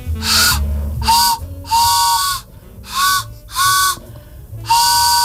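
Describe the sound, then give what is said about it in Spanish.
A homemade whistle imitates an early-1900s steam train with six loud, breathy, chord-like blasts of uneven length in a steady rhythm. “¿Pero eso qué hace? ¿Cómo suena? Un tren.”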